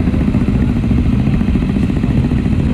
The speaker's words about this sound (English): I think it's about 20 or so bikes just arriving now with family members on it.